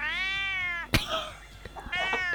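A cat meowing: two drawn-out, tonal meows separated by a sharp click and some soft shuffling, the first long and steady, the second shorter.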